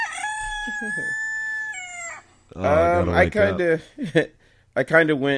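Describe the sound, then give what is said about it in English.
A rooster crows in one long, steady, high call of about two seconds, then a voice talks over the rest. “I was going to hit the rooster, but can I hit the rooster?”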